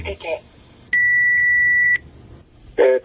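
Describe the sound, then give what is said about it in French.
A telephone at a switchboard gives a single steady, high electronic tone lasting about a second, clear and loud, with speech just before and after it. “Le téléphone qui sonne.”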